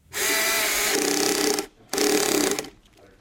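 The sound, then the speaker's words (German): Whirring power screwdriver at work during assembly in a small production hall in Cologne-Ossendorf, two loud sustained buzzing bursts, the first longer, separated by a short pause. “Es wird geschraubt, montiert und geprüft in der kleinen Produktionshalle von Courage und Kasaka in Köln-Ossendorf.”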